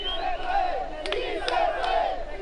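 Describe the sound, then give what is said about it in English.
Migrants on the bank of the Suchiate River cheer and chant in Spanish as a woman is lowered onto a raft. Many voices shout in rhythmic unison, with a few sharp claps or bangs breaking through. “The migrants on the bank of the Suchiate gasp and cheer as she is lowered to the raft. Si se puede, they chant.”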